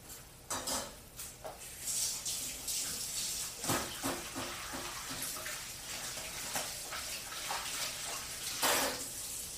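Tap water runs steadily while something is washed under it during home cooking, with a constant watery hiss broken by scattered clinks and knocks of dishes or utensils.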